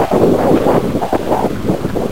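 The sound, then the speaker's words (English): Stormy wind buffets the microphone in a continuous, heavy, low rumbling roar that surges and dips slightly throughout, with no voices. “Oh, that's stormy,”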